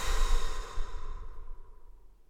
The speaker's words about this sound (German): Kurz den Atem anhalten. Und alle Luft aus deinen Lungen entweichen lassen.